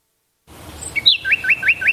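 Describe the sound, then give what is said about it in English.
Small birds chirping in a garden, a quick run of about five bright, high-pitched chirps repeating in a regular rhythm over faint background noise. “Hear that? The sound of adorable little birds in your garden.”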